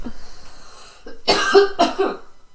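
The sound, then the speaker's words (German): A person coughs several times in a quick, loud run after a quieter stretch. “Ein Hüsterli.”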